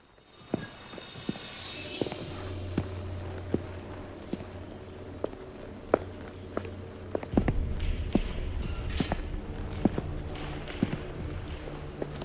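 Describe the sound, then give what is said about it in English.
Slow footsteps walk through a town as a sparse, irregular series of soft steps over a faint, steady background hum. “They slowly walk through the town.”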